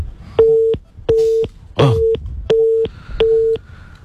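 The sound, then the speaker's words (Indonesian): A telephone busy signal follows a dropped call, five evenly spaced beeps of a steady mid-pitched tone, each lasting about a third of a second with short gaps between. “nampaknya kami terputus dengan Pak Setio. Kami akan coba menghubungi kembali.”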